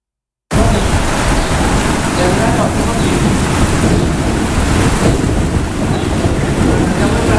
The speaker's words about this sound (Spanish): Máis de 3.300 rayos caeron sobre Galicia nas últimas horas e segue a inestabilidade atmosférica este luns.